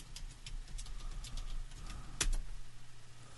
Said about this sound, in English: Oh, he's gonna type.